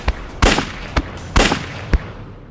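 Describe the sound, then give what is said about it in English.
Gunshots, several sharp, loud bangs fired at irregular intervals over a couple of seconds, each a brief crack with a short decaying tail. “fired three rounds directly into my midsection”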